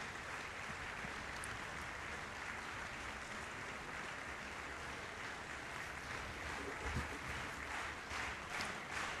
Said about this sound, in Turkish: izleyenlerin alkışlarına karşılık veriyorlar, selamlıyorlar. Ve şef şu anda kulise yöneldi. Alkışlar devam ediyor.